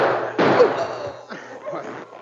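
A single gunshot in a radio drama, one sharp bang early on followed by a lower, fading tail and softer noises.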